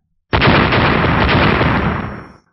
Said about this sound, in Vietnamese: Mỗi một đầu Lôi Quỳ sau khi đụng vào, liền phát ra một tiếng nổ rung trời